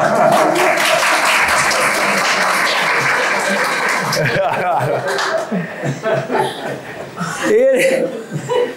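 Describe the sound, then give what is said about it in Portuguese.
An audience applauds and chuckles for the production team at a live talk, with loud, dense clapping and laughter for about four seconds before speech takes over. “E ó, a turma da produção aqui atrás. Uma salva de palmas para eles.”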